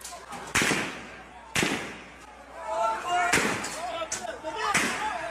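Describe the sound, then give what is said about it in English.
Gunfire as Hamas shoots its own citizens in the Gaza Strip: several sharp, loud cracks at uneven intervals, each ringing off briefly, with raised voices heard in between the later shots. “And now they're shooting their own citizens in the Gaza Strip. Now here's what that looked like.”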